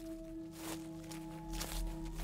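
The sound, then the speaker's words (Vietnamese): Shuffling footsteps move around a yard: a few soft scuffing steps over a steady low hum, faint and with no voices. “Chúng tôi bất chợt nghe có tiếng lẹp quẹp đi lại ở ngoài sân.”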